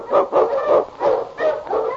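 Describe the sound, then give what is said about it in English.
Husky sled dogs bark in a rapid string of loud, mid-pitched yelping barks, one following another with barely a pause between them. “On, you Huskies!”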